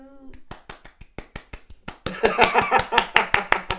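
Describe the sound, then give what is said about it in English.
Rhythmic hand clapping from several people: steady, sharp claps that turn louder and denser about halfway through, backed by a broad, noisy crowd wash. “Everybody else clapping in the background, y'all.”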